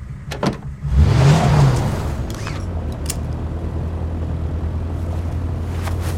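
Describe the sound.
A car drives off: a steady low engine rumble with a brief rising whine early on, then a constant drone to the end.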